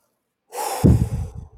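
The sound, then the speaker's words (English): One very deep, loud breath that begins as a hissy rush of air and turns rougher and fuller before trailing off. “That's about the biggest deep breath I've ever taken in my life.”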